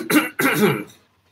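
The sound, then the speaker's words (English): A man clears his throat: two rough, raspy bursts, the second longer, followed by silence. “Harbin kind of clears his throat.”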